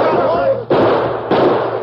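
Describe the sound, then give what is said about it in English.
Two gunshots fired at a man's feet in a Western town, each an abrupt, loud burst followed by a short noisy trail, coming just after a man speaks. “I'm shooting that tin star off your vest and making you dance while I do it.”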